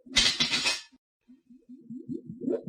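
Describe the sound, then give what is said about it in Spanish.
A lid is taken off a cauldron sitting on a Bunsen burner, giving a harsh, breathy metallic scrape that lasts under a second and then drops away to quieter low sounds. “Vamos a quitar la tapa de este caldero y ver qué se está cocinando.”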